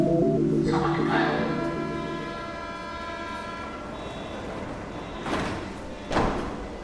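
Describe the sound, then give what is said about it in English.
A Berlin U-Bahn train approaches and pulls away, starting with a sustained tonal whine over a rolling rumble. The whine fades into a steadier clatter, and two heavy thuds near the end punctuate it. “This is the sound of the U-Bahn, one of my favourite sounds in Berlin. I love how it changes as it gets closer and then pulls away again.”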